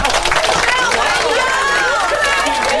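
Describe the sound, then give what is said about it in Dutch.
An enthusiastic audience at a DJ event cheers and applauds in a dense, continuous wash of crowd noise, with whistle-like tones rising and falling through it. “Je hoort, het publiek is wel weer enthousiast, hoor.”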